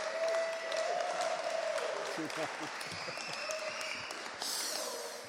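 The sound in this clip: Applause at an evening church gathering in Derby as a guest preacher is welcomed to the stage, an even wash of clapping that stays fairly level throughout and eases slightly at the end.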